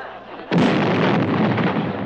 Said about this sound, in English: we have got to give Her Majesty her 21-gun salute.